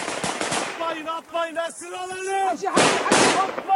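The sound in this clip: Gunfire as men in Syria shoot at two descending parachutes, heard as sharp bursts mixed with loud shouting voices.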